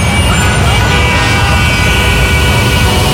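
Dense traffic-jam noise in an advert: a loud, steady roar of engines and road rumble that runs unbroken from start to end, with no distinct horn blasts standing out.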